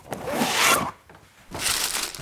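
Papery rustling as a football club's junior magazine is pulled from a paper folder in an office: two crinkly bursts of moderate loudness, separated by a brief quiet pause.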